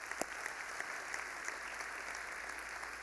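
Audience applause: steady, faint clapping of many hands that continues evenly throughout, with no voices.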